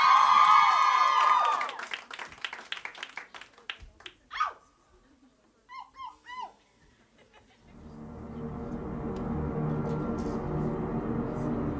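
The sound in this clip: A crowd applauds and cheers as a band is welcomed onto a stage at a live music taping in downtown Chicago. A few scattered sounds come first, then a steady, dense wash of clapping fills the last four seconds.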